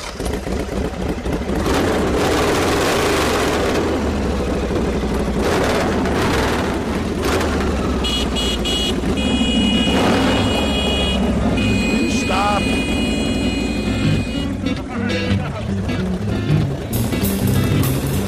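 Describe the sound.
A self-designed motorbike pulls away after the clutch is released, its engine droning and revving at a steady, fairly loud level throughout the long stretch, mixed with other busy sound.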